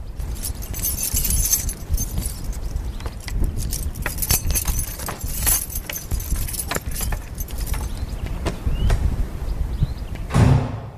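Keys jangle and rattle as a lighthouse door, built in the 1890s, is unlocked. Steady metallic clinks and scrapes run throughout, with a slightly louder burst near the end.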